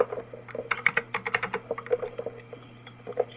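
Fingers type on a computer keyboard to write an email. Many quick, light clicks come in uneven bursts, fairly faint, over a low steady hum.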